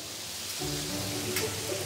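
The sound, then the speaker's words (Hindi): Mutton sizzles with onions in oil as large pieces of leg and shank, about three kilograms, are stirred together for nihari, giving a soft, steady frying hiss. “तो अभी आप बस प्याज तेल और mutton को मिला रहे हैं?”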